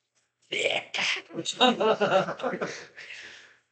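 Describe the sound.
A voice imitates a role-play character with something stuck in his throat: a run of harsh, throaty hacking and clearing bursts, loud and close together, lasting about three seconds after a brief silence.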